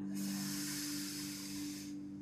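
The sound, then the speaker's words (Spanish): A long, deep inhale during a guided breathing exercise comes through as a steady breathy hiss lasting about two seconds. A low hum sits beneath it, and no one speaks. “Inhala y exhala. De nuevo. Inhala”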